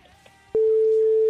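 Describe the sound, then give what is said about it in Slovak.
Telephone line tone while a radio show calls a contestant: after a brief quiet moment, a single steady, low electronic beep starts and holds loudly to the end. “tak počkaj chvíľku na linke, ideme volať tvojmu súperovi.”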